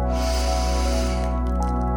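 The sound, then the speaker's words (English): A deep inhale through the nose, a long steady airy breath lasting over a second, heard above sustained calm musical tones that continue after the breath fades. “let's start by taking a deep inhale in through your nose”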